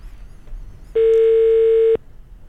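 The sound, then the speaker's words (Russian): Ringback tone of an outgoing telephone call to an office: one steady, mid-pitched beep lasting about a second, loud and clear over a low background murmur. “А, да, вот сейчас давайте подождем. Звоним в московский офис.”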